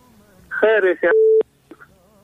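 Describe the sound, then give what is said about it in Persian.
A flat telephone tone sounds as a phone-in caller's line goes dead, a single steady beep lasting well under half a second, preceded by a short burst of voice. “تلفنش هم قطع کرده احمد آقا”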